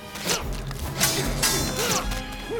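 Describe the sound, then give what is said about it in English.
A thrown spike thwacks into a tree trunk during a forest fight, one of a few sharp, loud wooden impacts set in a dense, busy action soundscape. “A spike hits a tree.”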